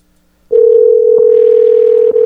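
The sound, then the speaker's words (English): A telephone rings on a call coming through as one steady, loud, single-pitched tone. It starts after a brief silence and holds unbroken to the end, with no voices. “So can you hear that phone call, Josh? Yes, I can. I can hear the ring.”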